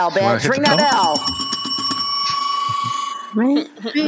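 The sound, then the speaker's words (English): A bell rings with a bright, sustained metallic tone and rapid strikes for about two seconds. People talk just before and after it. “ring that bell”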